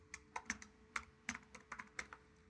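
Faint clicking keystrokes on a computer keyboard as a file name is typed while exporting a database, a quick, uneven run of many light taps.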